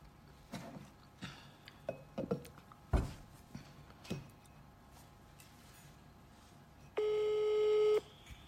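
A telephone call being placed to a mother: a run of irregular clicks and taps, then a pause, then a single steady ringing tone lasting about a second.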